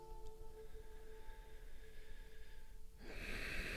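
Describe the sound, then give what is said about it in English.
A single deep breath during a guided relaxation exercise, a soft airy rush that rises near the end after a stretch of quiet, steady humming background. “Take some deep breaths.”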